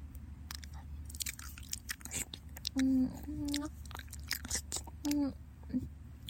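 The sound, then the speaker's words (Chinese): Wet ASMR ear-licking mouth sounds: soft, close clicks and smacks run throughout, broken by a few short hummed vocal tones. “舔您的耳朵的声音呀。试试看。”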